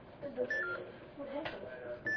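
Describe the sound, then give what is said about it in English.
Electronic beeping in a room: a couple of short, high, steady tones sound amid people talking. “Whoop, something just started beeping.”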